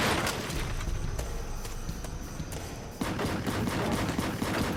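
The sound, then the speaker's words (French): Many gunshots from an assault weapon crackle in a dense, unbroken barrage that fills the whole clip at an even, harsh loudness, with one brief dip partway through. “Il y eut de nombreux coups de feu dans l'air.”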